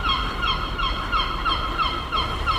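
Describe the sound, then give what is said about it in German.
Gulls calling in a city centre in Kiel, a run of repeated, high, harmonic cries that rise and fall in a steady rhythm over a constant background rumble. “Was man hier hört, sind die Möwen im Hintergrund.”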